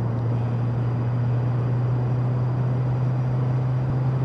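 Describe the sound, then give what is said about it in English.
Aircraft engines 1 and 2 running during start with the start valve open: a loud, constant low droning hum with a steady pitch and no breaks or changes throughout. “Start valve open, engine 1 and 2.”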